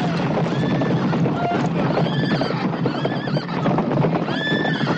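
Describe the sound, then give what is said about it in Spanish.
Horses whinny and neigh shrilly again and again as they flee during a battle scene in a 1983 adventure film. Hooves clatter underneath the cries in a dense, continuous rumble. “Los caballos huyen.”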